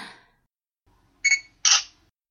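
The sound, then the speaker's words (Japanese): A camera shutter firing twice in a classroom: two crisp mechanical clicks in quick succession after a short silence. “ちょっと、なんで写真を撮るんですか？ 惨めな格好を写真に収めるのがお仕置きだからね。”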